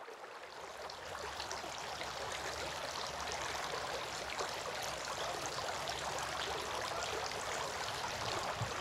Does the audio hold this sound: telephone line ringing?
no